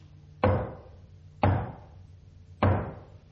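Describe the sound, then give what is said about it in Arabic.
Knocking on a door: three single heavy thuds spaced about a second apart, each with a short decaying resonance, alone with no voices. “وفجأة سمعوا طرقا على الباب.”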